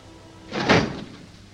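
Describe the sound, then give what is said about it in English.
A desk drawer full of bundles being shut: a single muffled thud with a short sliding rush. It is fairly loud and heard alone against a quiet background. “He shuts the drawer.”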